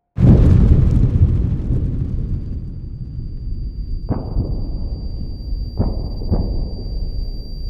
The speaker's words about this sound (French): Le noyau explose.